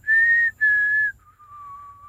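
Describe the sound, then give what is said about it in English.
A person whistles a signal tune: two matching high, clear notes followed by one long, steady lower note. The whistling is loud and alone, with no talk. “Can you do the Mockingjay whistle?”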